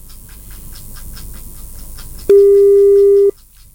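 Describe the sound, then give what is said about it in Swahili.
A telephone rings with an incoming call: one loud, steady electronic tone lasting about a second. Before it comes a soft, regular pulsing. “Unapigiwa simu Susan, hushiki na unataka kuokota.”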